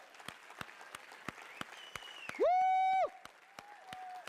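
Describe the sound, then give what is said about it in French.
A church audience applauds and acclaims God. Sparse, fairly faint claps keep a loose beat while voices call out, including one loud, sustained cry in the middle. “J'aimerais qu'on puisse acclamer notre Dieu, notre Seigneur, celui sur qui nous pouvons compter.”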